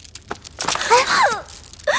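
A woman crying and wailing, with drawn-out moaning sobs that waver up and down in pitch between short breathy catches, loud and without any words.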